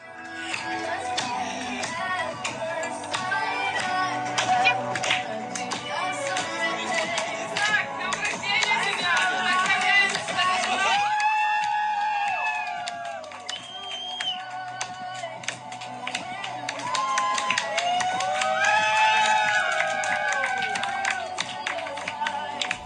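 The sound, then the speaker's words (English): Friends chanting happy birthday together, several voices singing in unison at a steady loudness, with a few claps and light taps mixed in and a brief lull partway through. “That's my friends chanting, happy birthday.”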